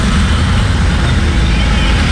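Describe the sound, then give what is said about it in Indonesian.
Busy road traffic of motorcycles, cars, buses and minibuses makes a loud, continuous roar of engines and tyres, with no single vehicle standing out. “ini kalau dilihat dari videonya Pak Johannes, dominasi kendaraan beragam ya. Kendaraan pribadi roda 2, roda 4. Kemudian ada kendaraan angkutan,”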